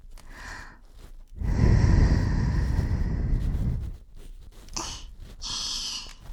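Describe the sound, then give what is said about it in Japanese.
Air blown softly into an ear during ear cleaning: one long, breathy rush of about two and a half seconds, followed by a couple of brief, fainter puffs of breath. “あんまり可愛いお耳だったから耳掃除しながらふーってしちゃった。”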